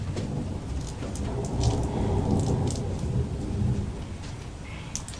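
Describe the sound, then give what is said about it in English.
Thunder rolls through a rainstorm: a deep, continuous rumble swells and lingers across the whole stretch, with the steady hiss of falling rain underneath and no voices. “That was a big one, wasn't it? No, thunder. That was thunder, yes.”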